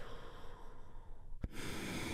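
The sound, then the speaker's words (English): A deep breath released in a guided breathing relaxation exercise: a long, soft, airy exhale, broken midway by one brief sharp click. “taking a big, deep healing breath. All together, here we go, and release.”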